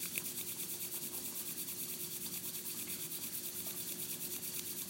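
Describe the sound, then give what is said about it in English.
Palms rubbed together as fast as possible during a vinyasa yoga class make a quiet, even swishing friction, with many quick, regular back-and-forth strokes repeating steadily throughout. “begin to offer your hands in front of your heart so that your palms can meet. And we'll rub our palms together as fast as we can.”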